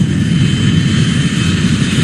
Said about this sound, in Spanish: una vez que ya estamos listos para ser cargados en la bodega, vamos a la pista desde donde nos van a llevar al avión.